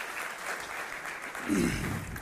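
Audience applause rises as steady, moderate clapping that swells briefly near the end of a short stretch.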